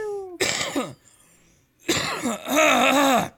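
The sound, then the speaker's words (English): A person clears phlegm from the throat in two rough, loud bursts. The second burst is longer and more voiced, and no other talk is heard. “Had some phlegm in my throat.”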